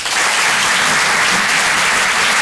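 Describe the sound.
Audience applause at a comedy club greets a comedian taking the stage: dense, steady clapping and cheering that stays loud throughout.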